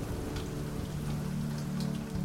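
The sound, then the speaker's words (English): Rain starts falling as a storm arrives early on a hillside, a faint, even patter of drops with a low steady hum beneath. “Smells like rain. It's starting!”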